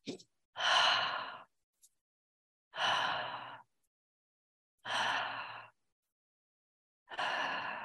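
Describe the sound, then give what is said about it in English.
A breathing exercise of quick nasal sniffs followed by sighing exhales through the mouth. Four long, breathy sighs come at even intervals, with a few brief, faint breaths between them, and no other sound. “you inhale quickly through the nose twice, and then you exhale like a sigh through the mouth once, and you repeat that four times. So you sniff,”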